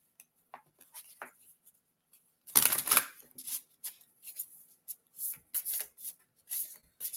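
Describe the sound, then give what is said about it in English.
Playing cards spilling out of a deck during a card reading, a short flurry of papery slapping, then soft scattered rustles and light taps as the cards are gathered and put back. “that was just like half the deck that just fell out. Putting them back in there.”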